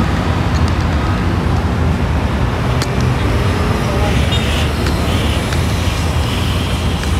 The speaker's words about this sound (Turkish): arabalar o tarafa gidiyor.